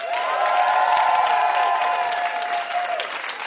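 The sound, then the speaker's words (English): An audience bursts into sustained applause at a live competition show, loud, dense clapping with a few cheers mixed in, holding steady and easing slightly toward the end. “Everyone give it up for our mystery guest, Chloe Swatner.”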